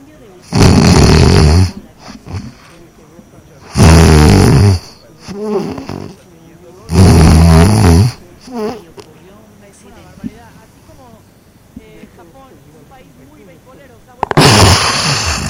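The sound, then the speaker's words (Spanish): A person imitates sleep apnea by voice: the breath is held, then a loud, rasping snore breaks through. Four heavy snore bursts come in all, with quieter breaths and sounds between them. “en lugar de esa exhalación profunda que hiciste, viene un ronquido más fuerte, así, que rompe la apnea, pero además va acompañada de un movimiento.”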